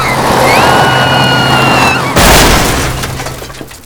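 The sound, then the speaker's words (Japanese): A truck on a race course veers off and crashes into a tree, wrecking it. A loud sustained roar with sliding whine-like tones builds, then breaks into a sudden heavy crash with shattering debris that dies away. “リアスさんの強引な差し込みが功を奏さず、トラックはコースアウトして木にぶつかり大破してしまいました。”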